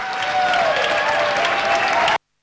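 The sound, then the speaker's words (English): People on the street applauding and cheering health staff on their way to work: loud, continuous clapping from many hands, with sustained higher tones riding above it, then an abrupt cut to silence. “On the streets, cheers of support for health staff going to work and caring for the sick.”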